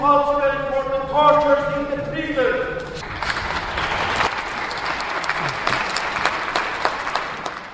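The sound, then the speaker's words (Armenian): Applause from an audience in a hall, breaking out after a voice at the start and continuing as a dense, steady wash of many hands clapping to the end. “Այս կոչերը դահլիճն ընդունեց ծափերով։”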